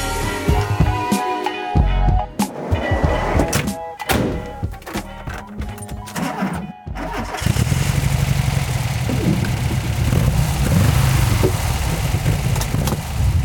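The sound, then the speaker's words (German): Volkswagen bus engine droning steadily while the vehicle drives through Hamburg city streets; a low, continuous hum settles in after some louder knocking and clattering near the start. “dieses wohlige, brummende Geräusch im Hintergrund, das ist mein Bulli. Und zwar fahre ich hier gerade auch tatsächlich durch Hamburg.”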